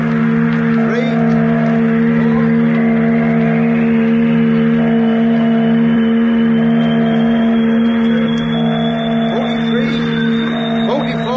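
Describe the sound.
A craft's motor is started with a flywheel, giving a loud, steady engine drone and a high whine that climbs gradually in pitch as it spins up, running continuously throughout.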